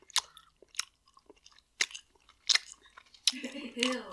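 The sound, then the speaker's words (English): Chewing on Twizzlers licorice candy, heard as a few sharp, moist bites and chews at irregular intervals with quiet gaps between them, followed by a brief vocal sound at the end. “You gotta try the Twizzlers, bro. Are you Twizzlers family or Red Vine family?”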